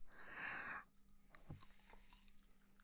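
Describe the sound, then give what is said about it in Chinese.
A bite of food being chewed: a brief burst of crunching, then soft, faint mouth and chewing noises. “看来是饿坏了呢。那再吃一口吧”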